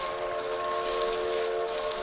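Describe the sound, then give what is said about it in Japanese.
A train whistle sounds from a railway near a river, a steady multi-toned blast held loud and unbroken through the whole clip over a rushing background hiss. “また列車の汽笛だ。”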